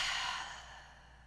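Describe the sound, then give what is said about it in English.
A deep breath out during a guided breathing exercise comes as one soft, airy exhale that gradually fades, faint and alone. “take a big breath in. And a big breath out.”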